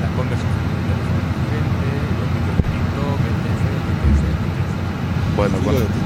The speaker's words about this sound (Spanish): Este es el ruido de fondo que tenemos nosotros las 8 horas que estamos trabajando en algunos autobuses de nueva adquisición.